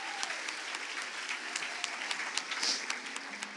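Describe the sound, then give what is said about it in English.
Audience applause at an evening gathering: a dense patter of clapping that holds an even, fairly quiet level throughout, with no single clap standing out. “Give him a round of applause for the boldness tonight, the courage tonight.”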